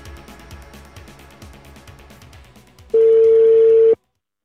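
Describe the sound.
A telephone call being placed, with quieter mixed tones followed by one loud, steady mid-pitched tone lasting about a second, which then cuts off into silence.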